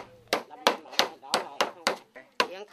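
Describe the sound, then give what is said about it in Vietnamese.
Ripe bananas pounded and mashed by hand into banana cake batter of flour, sugar and coconut milk: a fast, regular series of many sharp, loud thuds with brief pauses between strikes. “Mấy chị cũng nhanh tay giúp nội đập nhuyễn chuối để nội có thể trộn ngay.”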